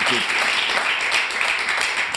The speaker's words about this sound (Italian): applauso